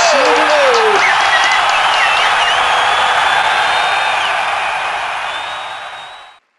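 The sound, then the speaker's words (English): A cheering crowd sound effect: loud, dense applause and cheers with high whistles and whoops, holding steady before fading smoothly away into silence. “put in some effects here, like cheering.”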